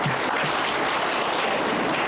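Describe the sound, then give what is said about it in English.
Applause in a legislative house, a steady, dense wash of clapping that holds at an even level throughout, with no clear voices over it. “I think we must applaud Mr. Kake.”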